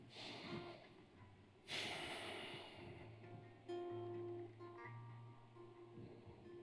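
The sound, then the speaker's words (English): A deep breath drawn in before a prayer: one loud, noisy inhale that tapers off slowly, followed by softer breathy sounds, with no talking. “let's first off, I'll get a big breath here.”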